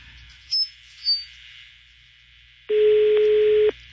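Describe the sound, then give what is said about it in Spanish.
Ringback tone of a telephone call going unanswered: two faint, short chirps, then one steady, mid-low tone lasting about a second, with near silence between. “Y mira, no contesta. A ver, lo voy a cortar y lo voy a marcar otra vez.”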